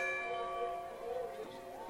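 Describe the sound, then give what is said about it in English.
A bell rung after a touchdown at a high school state playoff football game: sustained, faint ringing tones that fade slowly, with voices talking over them. “for the first time, they ring the bell here at Elm Creek.”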